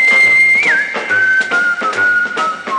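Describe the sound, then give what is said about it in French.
A wolf whistle aimed at a boy: a sustained, piercing whistled tone with a brief upward swoop and dip near the start, then held steady at a slightly lower pitch over a dense, noisy background. “Pourquoi quand un garçon me plaît, je n'ai pas le droit de le siffler?”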